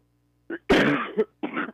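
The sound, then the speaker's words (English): A person with a nasty cough giving three rough, throaty bursts: a brief one, then a longer harsh one ending in a catch, then a final shorter one, with no talk. “Got a nasty cough there. You need to get you some cough drops there.”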